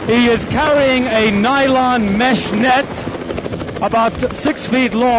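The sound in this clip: A rescue helicopter of a Swiss air rescue service hovering over a glacier in the Bernese Alps: a steady, dense rotor and engine drone running under continuous close speech throughout.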